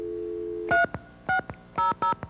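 Telephone keypad tones dialing a coffee shop: a steady dial tone, then four short, clear dual-pitch beeps with brief gaps and faint clicks between them.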